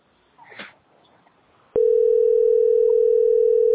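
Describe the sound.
A steady telephone line tone plays while calling a hotline queue. It starts after a quiet stretch with faint rustling and holds loud and unbroken at a single pitch for about two seconds.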